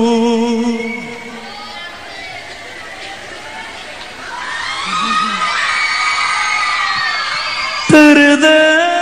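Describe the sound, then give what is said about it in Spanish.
Crowd cheering, whooping and applauding at a live anniversary concert. The noise swells midway, with music briefly at the start and again near the end. “Un aplauso bien grande.”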